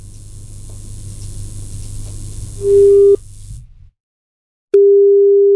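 A telephone ringing tone as radio hosts call a listener: after a stretch of hiss, a steady electronic ring tone sounds, stops for a moment of silence, then sounds again.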